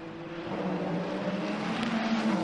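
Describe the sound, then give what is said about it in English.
Ferrari race car engine pushing along a racing track, a continuous droning engine note holding steady and fairly loud throughout, with no voices. “The Ferrari of Alessandro Pellegrini pushing along.”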